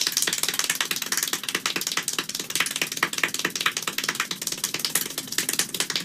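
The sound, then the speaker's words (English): Extremely rapid hand clapping from a world-record run of 1,140 claps in one minute, heard alone as a dense, nearly continuous stream of sharp clicks with no gaps. “So a guy clapped 1,140 times in 1 minute. 1,140 times. In 1 minute. Do you want to hear it? Yeah. Okay, here's him doing it.”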